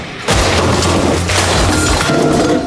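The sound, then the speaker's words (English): A gaming setup being smashed and destroyed, with loud, continuous crashing and booming impacts that keep up a heavy clatter throughout. “It's time to destroy the gaming setup. Here we go.”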